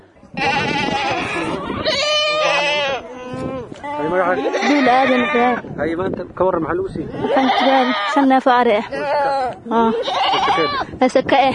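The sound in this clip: Sheep and goats bleating, livestock set aside as zakat for the poor. The loud, wavering cries overlap almost continuously from many animals.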